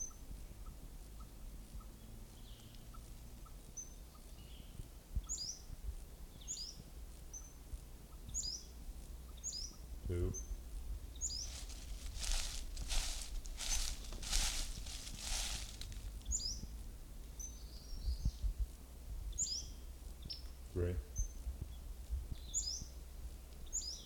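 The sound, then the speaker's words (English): Western flycatcher song: short, high-pitched chirps repeat many times, faint over steady low background noise. “Western flycatcher number one.”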